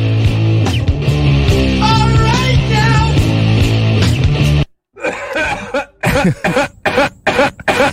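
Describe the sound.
Coughing opens a recorded rock song: after a dense stretch of loud music breaks off, a few sharp, loud cough bursts follow in an uneven run.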